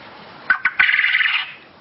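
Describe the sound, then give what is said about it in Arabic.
A quail calls with three short, sharp notes and then a longer, buzzy trilled note. The calls are fairly loud and heard alone. “أهو ده صوت السمان، أهو صوت السمان.”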